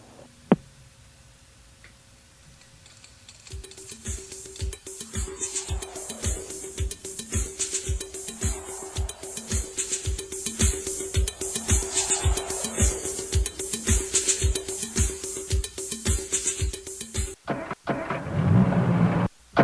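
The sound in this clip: Engine of a broken-down car: a long run of steady, evenly spaced mechanical ticks over a constant faint hum, ending abruptly with a louder rush of noise.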